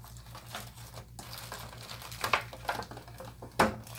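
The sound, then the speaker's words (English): An Arctic Air Freedom device slides out of its box with faint papery rustling, then a couple of sharp taps as it is set down. “I am just opening up the Arctic Air Freedom. Slides right on out of there. There we go. Put that down.”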